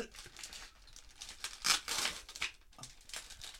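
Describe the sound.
Sticky tape pulled and torn while wrapping, giving faint, crinkly ripping bursts that peak in a louder cluster midway, with no talking over them.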